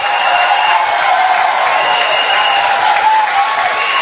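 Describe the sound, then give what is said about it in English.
A church audience applauds during a morning service to welcome an apostle to preach, with dense, sustained clapping and scattered cheers that stay at a steady, fairly loud level throughout. “Please put your hands together to the Lord as I welcome Apostle Joshua Selma.”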